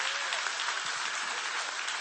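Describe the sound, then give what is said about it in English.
A church audience claps hands together in praise during a sermon, a dense, steady patter of many hands that stays even and continuous throughout. “Give the Lord a hand clap if you did.”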